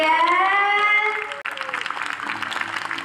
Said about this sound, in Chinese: 热烈掌声！